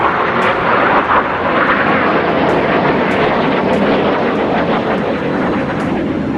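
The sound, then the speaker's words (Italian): F-16 fighter jets fly low over Ankara, making a dense, continuous roar that stays loud and steady throughout with no break or fade. “I caccia F-16 controllati dai golpisti avevano iniziato a sorvolare a bassa quota Ankara, seminando il panico tra la gente.”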